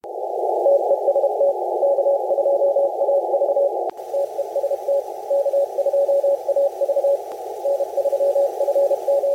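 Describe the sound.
An amateur radio signal: a steady Morse-code tone keyed in quick beeps over band-limited hiss. Partway through, the RF gain is suddenly reduced, marked by a click and a shift in the background noise, while the keyed tone carries on.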